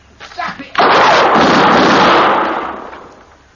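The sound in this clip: A gunshot in a radio western drama: one loud, sharp blast that spreads into a long rumbling decay, preceded by a few softer brief sounds.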